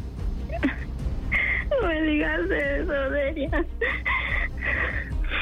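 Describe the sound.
A person crying, with loud wavering, wailing sobs through the middle and broken whimpering cries before and after.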